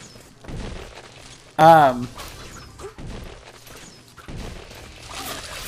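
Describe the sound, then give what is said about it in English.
Video game sound effects of firebombs and throwing darts: one loud, sharp burst stands out among lighter clattering hits, all beneath a voice talking through the action. “This unknown round silver thing that I have when I press A throws out firebombs, and now I'm throwing my throwing darts.”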